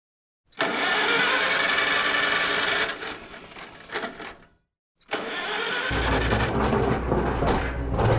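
A time-machine start-up effect made from engine noise: a loud, dense mechanical roar runs for a few seconds, fades and drops briefly to silence, then returns as a steady rumble with a deep low hum underneath.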